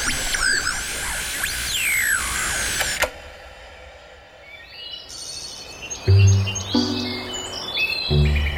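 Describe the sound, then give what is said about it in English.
Birds sing in the early morning. Bright chirps and warbling calls fill the first few seconds, then give way to sparser, quieter tones with a few low thumps. “How I love to wake with the early birds.”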